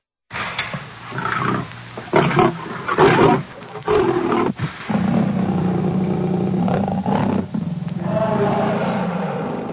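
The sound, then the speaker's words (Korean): A starving lion roaring as it pounces on a man before an audience. A series of loud, growling roars comes first, followed by a long, sustained rumbling roar through the second half. “드디어 피해 재전을 위해 며칠 동안 굶주렸던 사자가 앤드로클리스 앞에 나타납니다. 사자는 앤드로클리스를 보자마자 덤벼듭니다.”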